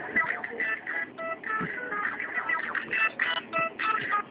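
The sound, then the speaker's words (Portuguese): A phone rings with an incoming call, a repeating electronic ringtone of short tonal bursts in a steady rhythm, fairly quiet and thin, with no clear speech over it. “Eita, alguém ligando pra ela.”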